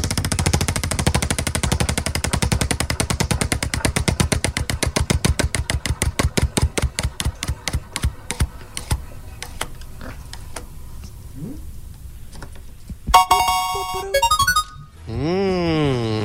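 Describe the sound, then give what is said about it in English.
A prize wheel spun fast to the right, its ratcheting clicks rapid at first and then gradually slowing and spacing out until it stops, followed by a short bright electronic jingle and a wobbling, warbling tone. “we're going to spin the wheel for you, fast or slow, left or right?”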